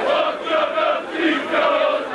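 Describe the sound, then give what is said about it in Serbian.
Partizan basketball fans known as Alcatraz chant a song in unison at a match, with the club's players joining in: a loud massed chorus of voices in a steady sung rhythm that swells and dips in waves. “Otrovna si kao zmija, proći ćeš ko ćuruvija, pevaju navijači zvani Alcatraz, autorki Insajdera Brankici Stanković, a uglas sa njima i košarkaši Partizana”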